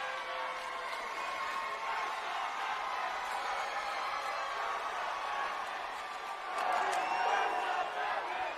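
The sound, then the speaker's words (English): A wrestling crowd at a July 2011 WWE show chants "First Amendment" in a steady, loud roar of many voices that swells near the end. “If you can't hear that, the audience is chanting First Amendment, which is the freedom of speech.”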